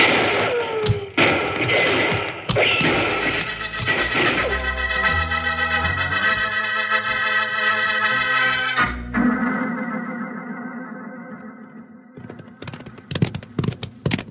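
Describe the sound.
Gunfire in a Western shootout: a quick cluster of sharp shots opens, a sustained stretch of music follows, and another rapid burst of shots closes.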